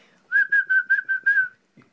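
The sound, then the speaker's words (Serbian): A person whistles a run of six short, steady high notes, evenly paced and clear, with no other sound except a faint brief noise after the last note. “sve baciš u kontejner i počneš da zviždiš. Znači, svi instrumenti ne vrede, samo zvižduk.”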